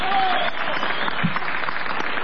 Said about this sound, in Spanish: Vamos a saludar inmediatamente a Patricio Barton con una ovación.